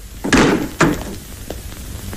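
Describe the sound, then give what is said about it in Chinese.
A door is pushed open into a meeting room in a drama, with two loud, heavy thuds about half a second apart. A few fainter knocks and rattles follow. “这时，贺龙将军推开门，特意赶到会场”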